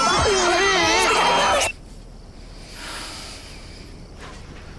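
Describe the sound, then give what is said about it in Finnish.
Children scream and cry in a television advert for holiday travel, shrill, wavering wails overlapping loudly, then cut off abruptly before two seconds, leaving near quiet. “Kamalat rääkyvät lapset pilaavat loman.”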